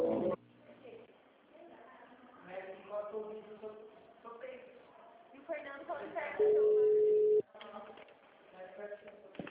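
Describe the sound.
A steady telephone ringback tone, held for about a second, sounds while a caller waits for a hospital switchboard operator to answer. A recorded voice speaks before and after the tone.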